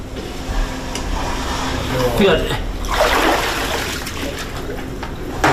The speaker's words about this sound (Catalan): Aquest so d'aigua era el so de l'aigua que entrava a la casa.